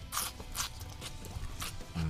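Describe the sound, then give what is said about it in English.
Crisp bites into a stalk of celery, heard as several sharp, crunchy snaps at irregular intervals. Softer chewing sounds fill the gaps, the whole thing is fairly quiet, and no one speaks. “Time for a bite of celery.”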